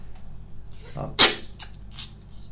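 A single sneeze, short and sharp, with a soft intake just before it and a few faint rustles after.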